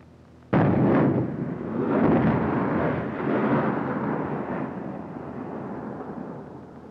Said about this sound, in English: Those were heat rounds, high explosive.